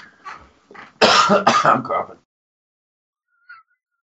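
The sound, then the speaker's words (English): A person's harsh cough comes in a loud burst of a couple of rough bursts right after a few brief voiced sounds, then silence with a faint short sound near the end. “Oh, I'm coughing. I coughed.”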